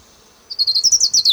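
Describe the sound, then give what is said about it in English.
Ground warbler song: a faint, thin high note gives way to a rapid, evenly spaced run of about eight bright, high-pitched buzzy notes that grow louder and slightly higher. “Ground warbler number 3.”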